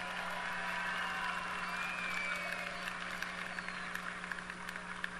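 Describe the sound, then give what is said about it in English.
Sustained audience applause as volunteers return to their seats during a talk on exercise and health, a dense, steady clapping texture lasting throughout, with a low constant hum underneath. “Give them a hand clap as they go back to their seat.”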